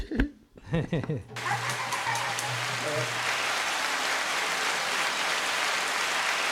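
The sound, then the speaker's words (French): People clap their hands after a brief moment of speech. The clapping is a dense, continuous patter that holds steady to the end, with a low hum under its first couple of seconds. “On applaudit comme des otaries.”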